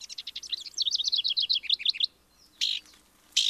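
A downy woodpecker calls with a rapid, even run of high, thin chirping notes lasting about two seconds, followed after a pause by two short, harsher high bursts.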